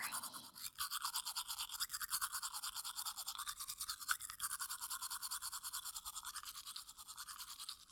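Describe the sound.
Toothbrush bristles scrub teeth as someone brushes another person's teeth: a rapid, steady back-and-forth scratching of many quick strokes that runs without a break, fairly faint, with no voices.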